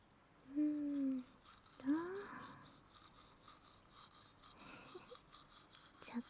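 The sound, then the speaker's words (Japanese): Toothbrush bristles scrubbing teeth, working along the lower right back teeth, a soft, steady scratchy rasp that runs throughout, with a couple of short voiced sounds near the start. “まずは下の歯から磨いていくよ。右の奥歯から。”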